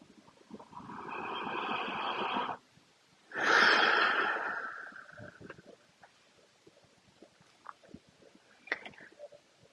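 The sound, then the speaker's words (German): A deep breath is drawn in and slowly let out, two long airy rushes of breath, the exhale louder and fuller, followed by faint rustling and small clicks in near silence. “Noch ein tiefer Atemzug, weil es so schön ist.”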